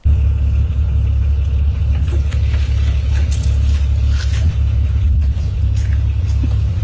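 Steady engine rumble and road noise from a car driving along a country road toward a countryside hotel. A deep, continuous low drone holds at an even loudness throughout, with faint higher road hiss and no talk.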